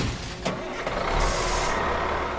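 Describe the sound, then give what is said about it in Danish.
A truck's engine drives away with its trailer, a steady, broad roar and rumble that holds at an even level for the whole moment, with no voices. “vent, om McQueen kører væk med lastbilen”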